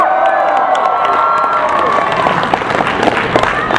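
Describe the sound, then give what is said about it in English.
A crowd of fans cheers loudly, a sustained roar of shouting and high-pitched screaming voices mixed with some clapping. “Come on, I wanna hear some cheering.”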